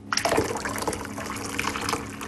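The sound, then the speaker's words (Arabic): Hot water at 100 degrees Celsius being poured, following an earlier pour of cold water; a loud, steady, splashy liquid stream runs throughout with small bubbling and dripping detail and no talk. “هل سمعتم؟ حان وقت الماء الساخن بدرجة حرارة 100 درجة مئوية.”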